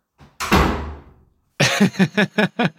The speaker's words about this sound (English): Very firm slam from that three-year-old.